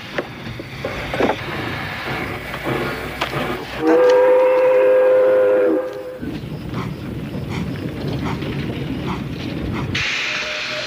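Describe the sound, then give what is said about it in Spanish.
A train rolls along with a steady rumble while its whistle blows a sustained, tuned note for about two seconds midway, then the rumbling carries on alone, growing brighter and hissier near the end. “Después de varias horas de tren, llegó nuestro protagonista a Cabo Cañaveral.”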